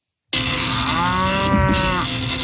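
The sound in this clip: A cow moos in one long, loud, sustained low call that starts abruptly and holds steady to the end, used as a sound effect.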